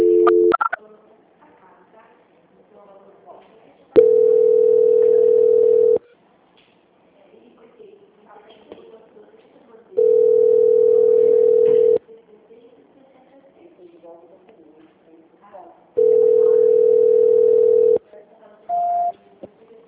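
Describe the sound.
A telephone ringing tone sounds on an unanswered call. Three long, steady tones of equal pitch repeat at even intervals with quiet, murky gaps between them, and a brief higher beep comes at the end.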